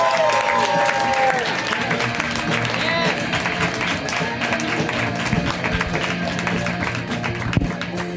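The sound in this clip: Audience applause welcoming a comedian to the stage: dense, steady clapping with crowd noise that holds strong from start to finish.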